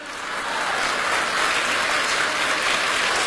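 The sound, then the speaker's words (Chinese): Audience applause swells in over the first half second, then holds as a dense, continuous patter of many hands at an even level, with no voices over it. “鼓掌。”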